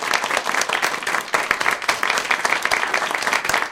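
An audience applauds to welcome a guest, a wildlife curator, onto a show. The clapping is lively and busy, with many overlapping claps at a steady level throughout.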